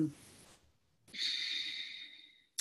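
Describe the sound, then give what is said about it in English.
A group at a 2018 symposium breathes together: a soft, airy intake, then a long, steady exhale of rushing air lasting over a second, fairly faint. “take a nice deep breath, and then you're going to release”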